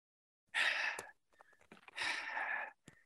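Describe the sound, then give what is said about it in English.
Heavy breathing from a double-coated husky dog resting outside in the sun after a walk on a hot day: two long, breathy huffs, with faint clicks and snuffles between them. “if you hear really, really heavy breathing in the background, creepy. That's just my dog.”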